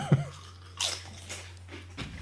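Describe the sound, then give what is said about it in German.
Crunching of Chio Chips Philly Pizza flavour crisps, with a few short, crisp bites spread across the moment over a steady low hum, with no talk. “Aber probier, komm, einen kurz und dann Chio Chip Philly Pizza Tasting.”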